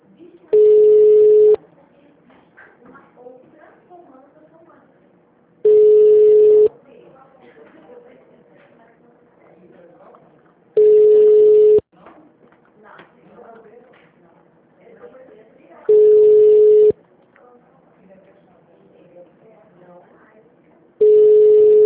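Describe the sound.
A ringback tone from an outgoing telephone call sounds in five steady, mid-pitched beeps of about one second each, spaced roughly five seconds apart. The last beep is cut off, and faint talk and background noise fill the gaps.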